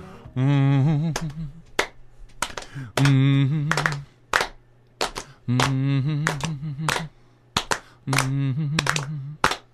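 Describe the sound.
Many sharp hand claps crack out at irregular intervals between stretches of sustained vocalizing, each one a crisp, loud snap.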